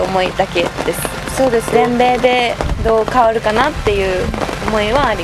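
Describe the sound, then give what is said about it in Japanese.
Raindrops patter on a tent outside a clubhouse at a rainy women's golf tournament, a steady soft crackle beneath a player's continuous interview speech. “パチパチパチパチこうテントを雨粒が、打ってる音が聞こえてきたと思うんですけれども”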